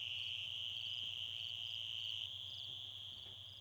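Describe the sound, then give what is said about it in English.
Toads calling in a shrill, continuous chorus: a steady high trill that holds at an even level throughout, with no voices present. “the recording of the toads, I would say, again, it's kind of shrill, not exactly relaxing, but it's like one of the most beautiful sounds that I've ever heard”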